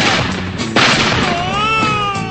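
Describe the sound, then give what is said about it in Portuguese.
A gunshot sound effect gives one sharp, loud crack, followed by a wavering, whining tone over constant background noise. “Lá vai fogo, Zé. Vai chumbo. Vai chumbo quente”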